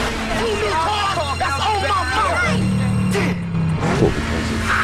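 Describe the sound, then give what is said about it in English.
Engines of a Camaro and a lime green Mitsubishi Evo rev hard during a street race, a steady, loud mechanical drone that shifts in pitch partway through, with voices talking over it. “The Camaro and the Evo nose to nose. Brian shifts gears and hits 8,000 RPM. Corpy grits his teeth determinedly as the lime green Evo edges ahead and just beats him at the line.”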